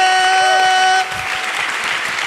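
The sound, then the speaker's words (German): Applause for a quiz winner at an event, brief and moderately loud, following a short sustained electronic tone that cuts off after about a second. “Ein Applaus für Marie.”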